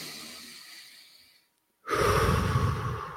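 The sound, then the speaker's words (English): Slow, calm breathing done deliberately: a soft breath fades out into a brief silence, then a much louder, steady rush of air is held to the end. “Conversely, I can breathe like this,”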